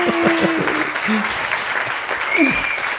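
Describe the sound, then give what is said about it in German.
Applause welcoming a guest to an evening show in a shared flat: steady, dense clapping throughout, with voices calling and whooping over it. “Applaus, Applaus, Applaus. Applaus, Applaus, Applaus.”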